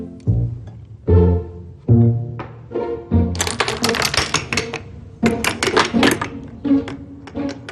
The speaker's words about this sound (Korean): 단지 친구들을 즐겁게 해주기 위해 처음으로 이러한 기계를 만들기 시작했다는 조세 퍼셔. 그의 기계 장치들은 한치의 오차도 없이 연속적으로 작동합니다.